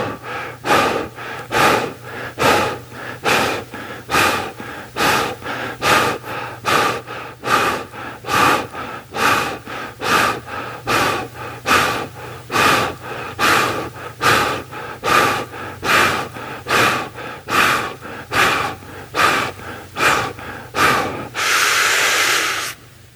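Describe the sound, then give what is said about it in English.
A group does a rapid panting breathing exercise: many quick, forceful breaths in a steady, even rhythm that ends with one longer, sustained breath. “So kind of like a panting breath, so more like you see a dog not like to cool itself, but that's the kind of breath I want.”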